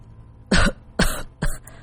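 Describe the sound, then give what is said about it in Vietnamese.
A man coughs violently, three harsh, loud coughs in quick, evenly spaced succession with nothing else heard. “Người đàn ông ra hiệu đỡ anh ta lên bên ghế đá, đưa tay che miệng ho sặc sụa.”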